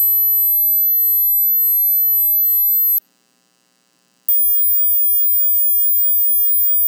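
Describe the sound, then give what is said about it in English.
High-pitched steady hearing-test tone holds for about three seconds, cuts to silence for over a second, then returns as a second shifted steady tone that sustains to the end, with no voices. “Okay, if you can hear 8,000 hertz, you're both alive and not hearing impaired. But let's keep raising the frequency.”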